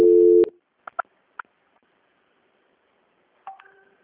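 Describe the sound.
Telephone tones ring out during a call transfer: a steady tone of about half a second, then three short clipped beeps, a long pause, and a final brief tonal signal stepping between two pitches.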